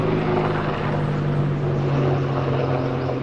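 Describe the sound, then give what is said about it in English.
A military attack helicopter with small stub wings and rocket launchers flies over a training area, giving a loud, steady rotor and engine drone with a faint tonal hum throughout. “oh yeah, there you go. It's a military attack helicopter. And then there's another one that's also an attack helicopter.”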